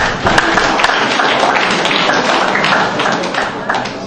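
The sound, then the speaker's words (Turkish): Loud, busy audience clapping for teams at a Turkish quiz show, a sustained patter of many hands. “Hepsini birden çılgınca alkışlıyoruz.”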